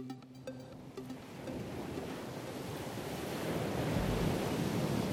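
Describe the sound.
Sea waves surge where a river current meets the sea, a broad rushing wash mixed with wind that swells steadily louder toward the end.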